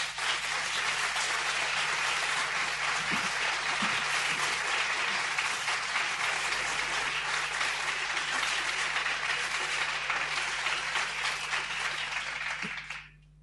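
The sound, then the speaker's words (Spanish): Audience applause fills the whole stretch as dense, even clapping that stays loud and steady for over twelve seconds, then tapers off abruptly at the end, with a faint low hum running underneath. “después del trío concertante de los aplausos de ustedes”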